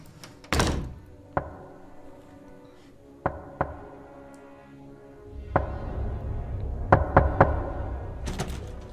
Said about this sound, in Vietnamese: giống như là tiếng gõ cửa